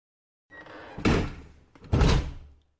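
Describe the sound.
A locked door is tried twice: two dull, fairly loud thumps about a second apart, each with a brief rattling tail, and no voices.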